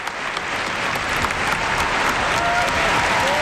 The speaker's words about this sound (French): Et tous les applaudissements nourris,